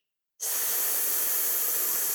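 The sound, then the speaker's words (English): A long, steady "shh" exhale, with breath blown out slowly through the lips during a seated relaxation breathing exercise. It starts abruptly after a brief silence and holds at an even, airy hiss for about two seconds. “Breathe deeply from your abdomen. Feel the energy from taking in more air. Blow the air out with a shh.”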